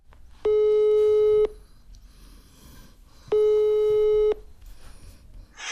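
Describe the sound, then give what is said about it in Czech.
Ringback tone on a telephone while a call is being placed: two long, steady beeps of about a second each, with a gap of roughly two seconds between them, over faint background hiss. “No a proto teď hned zavolám Vaškovi Šandovi.”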